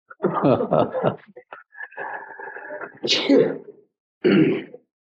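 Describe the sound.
A single sneeze, a sharp, breathy burst that breaks into a discussion in Arabic, with people talking before and after it.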